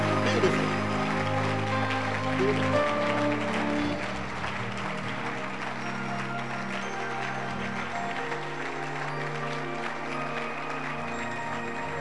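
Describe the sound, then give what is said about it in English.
Audience clapping at a church conference, a dense, steady wash of hand claps that runs without a break for about twelve seconds at an even, moderate level. “Can you clap your hands?”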